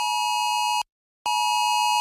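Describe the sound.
A national emergency alert test tone from the Luxembourg government sounds on a mobile phone. A steady, bright electronic tone rich in overtones plays twice at a constant level, with a brief silence between the two bursts.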